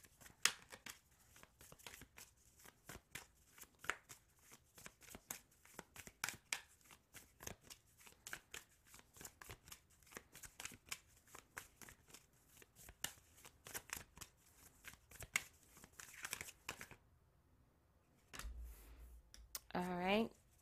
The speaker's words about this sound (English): But before I read that, we'll pick a rune card.